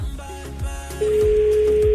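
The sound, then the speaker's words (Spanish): Steady telephone tone during a phone call: a continuous mid-pitched hum starts about halfway through and holds unbroken to the end, after a short, muddled stretch with low thumps. “Pues estoy marcando de otro.”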